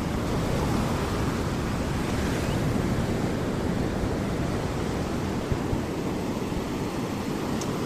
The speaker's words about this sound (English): And have the surf come up and wash them afresh again.